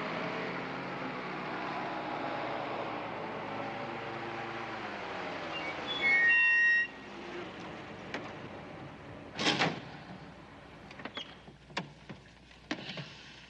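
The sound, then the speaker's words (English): A car pulling up in a film scene: an engine hum whose pitch slowly falls over about six seconds, then a short loud burst and several sharp knocks and clunks. “Then one of the great scenes of all time. Car pulls up. There's Madeline Kahn.”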